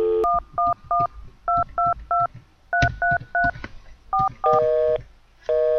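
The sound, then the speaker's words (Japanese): Telephone keypad tones from random numbers being pressed: crisp two-tone beeps in three quick groups of three, then a few more presses and longer steady tones near the end. “適当に番号を押すと、こんな感じで、繋がりませんでした。”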